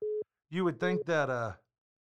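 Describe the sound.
A mobile phone alert sounds during a conversation: a short steady electronic beep, a pause, then a brief warbling, tonal melodic phrase that stops abruptly.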